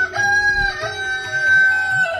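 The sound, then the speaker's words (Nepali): A rooster crows in one long, loud, sustained call with a steady ringing tone, heard alone over faint low background noise. “भाले बासिसक्यो होला”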